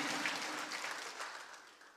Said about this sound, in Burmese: လက်ခုပ်တီးလက်ထိုးဘုရားကိုဂုဏ်ပြုသင့်ပါတယ်အာမင်ဟာလေလုယာ